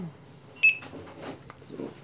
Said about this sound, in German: Das sind jetzt alles die aus der Kühlung. Genau. Die müssen wir aber erst einmal einscannen, ne?